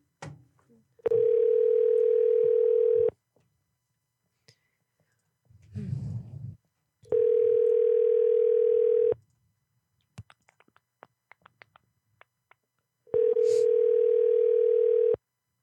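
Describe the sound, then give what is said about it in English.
An outgoing telephone call rings with three long, steady ringback tones, each lasting about two seconds and separated by longer pauses. Faint clicks and a brief low murmur fall in the gaps. “a lot of people do come to this show because they're like, man, I love the way that that phone rings.”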